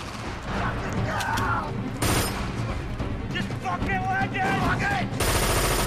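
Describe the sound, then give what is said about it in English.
Gunfire rings out as soldiers take turns laying down covering fire while others fall back, with loud, sharp bursts of shots cutting through a dense, continuous rumble of noise. “The men take turns to provide covering fire while the others fall back.”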